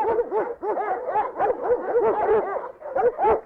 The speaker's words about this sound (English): All this noise you hear is the dogs up here.